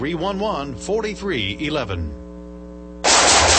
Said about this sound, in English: Whew, nice shooting.